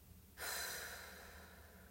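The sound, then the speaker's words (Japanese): A deep exhale during a guided breathing exercise: after a short quiet, one long breath out begins abruptly as a loud, breathy hiss, then slowly softens as it runs on to the end. “イライラモヤモヤは息と一緒に吐き出してデトックスしちゃいましょう吐き切るでは最後吸ってはい吐きます”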